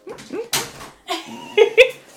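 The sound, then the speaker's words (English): A pet dog gives a few short, high whimpers and yips, loud and uneven, between brief quieter noises. “That's our dog.”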